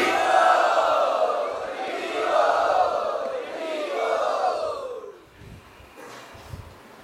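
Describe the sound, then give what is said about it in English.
A crowd at a Vaishnava gathering loudly chants "Hari" in unison to welcome guests, with three long sustained shouts whose pitch falls at the end of each. A quieter stretch with faint murmuring follows. “Let us welcome them by loudly chanting Hari.”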